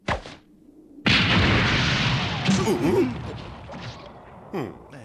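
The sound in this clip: A grenade explosion hits with a sudden loud blast about a second in, its rough roar holding for several seconds before fading, with a shorter burst near the end and a voice crying out over the din.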